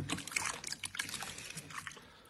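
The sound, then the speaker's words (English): Water with a battery and three shakes of salt in it is stirred with a banana, giving faint, irregular sloshing and trickling splashes over about two seconds. “Just drop the battery into the water gently. Salt, three shakes. One, two, three. And then that's it. Take a banana and stir it up.”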